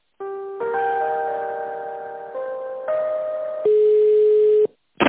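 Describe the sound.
Electronic telephone tones play while a call is being transferred. A steady, sustained tone shifts pitch in several abrupt steps over about four seconds, then a short, sharp blip follows after a brief gap.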